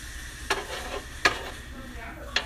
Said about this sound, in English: I think it's ready. Yeah. Okay. So the eggs are now done.